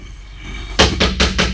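Banging on the door of an old house: four loud, heavy knocks land at an even, steady pace, with no voices.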